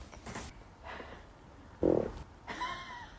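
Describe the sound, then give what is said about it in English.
A short, low, buzzy fart sounds once during a live interview, loud and abrupt against an otherwise quiet background with faint shuffling before and after. “Was that a fart live on Mac and Me?”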